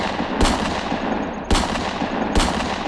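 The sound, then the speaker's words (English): Three gunshots ring out as sharp, loud bangs at uneven intervals, the first two further apart than the last two, over a dense, noisy roar that carries between them. “You just shot the messenger.”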